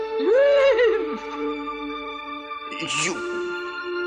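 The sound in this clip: A horse whinnies, a loud quavering call whose pitch wavers and falls away. A steady tonal hum continues underneath, with a shorter rough burst later on.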